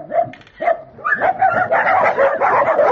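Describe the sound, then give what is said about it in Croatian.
Many dogs bark and yip at a crowded animal shelter housing about 200 dogs. The barks overlap continuously and loudly, with higher yelps mixed among deeper woofs throughout. “Jovica Dreković iz Draževačkog azila kaže da je na tom mestu oko 200 pasa”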